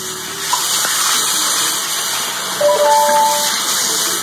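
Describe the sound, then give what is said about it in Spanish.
A tap runs steadily into a hotel sink while a man washes his head, a constant hiss of flowing water with slight shifts in the splash and no talking. “ahí está en un lavabo del Hotel Dux, creo que se llama así ese hotel, donde lo llevan ahí, donde se está aseando, se está lavando la cabeza.”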